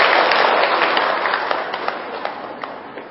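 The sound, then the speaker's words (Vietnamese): An audience at a Vu Lan Buddhist ceremony applauds for a pair of singers: a dense, steady wash of many hands clapping that tapers slightly toward the end, with no voices. “Xin toàn thể quý vị cho một tràng pháo tay.”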